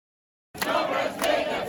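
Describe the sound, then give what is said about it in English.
Protesters jeer in Minsk on the embattled leader's birthday; after a brief silence, a loud crowd roar starts abruptly, with two sharp bursts of noise cutting through the din. “The embattled leader's birthday was all jeering, not cheering, Sunday.”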